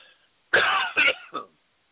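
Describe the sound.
Throat clearing from a tickle in the throat: a strong rasping burst followed by two shorter, weaker rasps, heard alone without talk.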